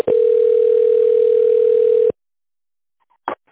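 A telephone tone sounds during a call transfer: one steady, unbroken electronic tone lasting about two seconds, then silence broken by a single brief click.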